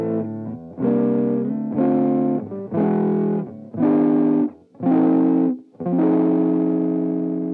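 A Danelectro Hawk electric guitar played on the neck pickup rings out in six distorted, sustained chords struck in a steady rhythm, each cut short by a brief gap, with the final chord left ringing longest.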